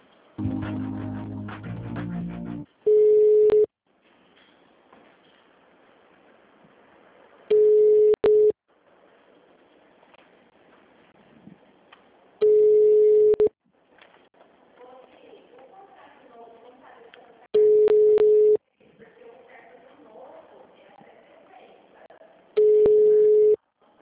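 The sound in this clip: Telephone line tones play while a call is being transferred: long, steady, mid-pitched beeps recur about every five seconds, with faint line noise between them.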